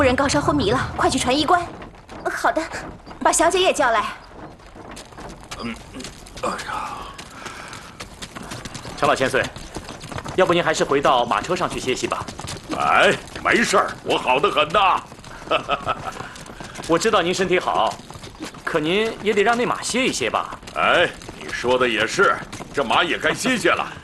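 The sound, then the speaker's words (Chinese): Horse hooves clip-clop steadily as a horse is ridden with an army on the march. The hoof beats run on under people talking. “我知道您身体好，可您也得让那马歇一歇吧。 哎，你说的也是，这马也该歇歇了。”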